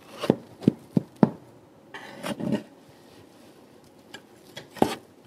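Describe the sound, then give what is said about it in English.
Biscuits are being cut with crisp, dry crunching snaps. Four quick cuts come first, then a few scattered ones. The sound is fairly faint and there is no talk. “We're cutting the biscuits.”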